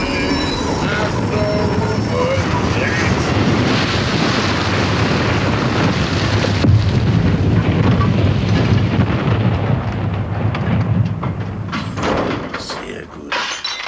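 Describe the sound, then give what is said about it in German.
A running locomotive and its rail cars make a loud, continuous rumbling roar, with high metallic wheel squeals and tones early on. The noise stays dense and steady throughout before thinning out in the final second. “Hättest du dein Dingsbums abstellen können? Was denn für ein Dingsbums? Die Lokomotive! Man versteht jetzt ein eigenes Wort nicht mehr.”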